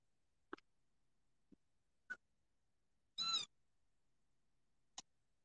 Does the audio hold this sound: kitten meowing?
yes